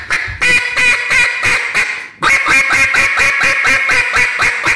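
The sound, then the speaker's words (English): Rapid quacks from a Jargon Game Calls duck call being blown to imitate a hen mallard. Two loud, rhythmic runs of many nasal quacks follow each other with a short break between them. “see, to me, that sounds ducky, right? Like, yeah. In my ear, that sounds like a hen mallard.”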